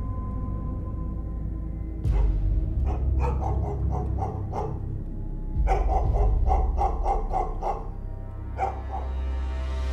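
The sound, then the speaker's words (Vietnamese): A pet dog barks intermittently, in irregular clusters of sharp barks with pauses between them, over a low steady background rumble. “nghe thấy tiếng con chó bà nuôi. Nó đang trõ ra đâu đó sủa nhát gừng.”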